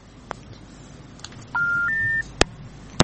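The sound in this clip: A phone-line disconnect tone on a call: a short electronic beep in two steps, the second slightly higher, set between a few sharp clicks over low hiss.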